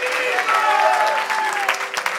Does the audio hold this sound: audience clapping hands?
yes